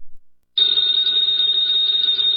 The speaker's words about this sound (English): that phone bell means adventure.